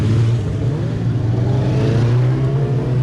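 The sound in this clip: Racing motorcycle engines roar as a road race begins, with riders following a marshal bike onto the road: a loud, continuous, steady engine drone with no voices.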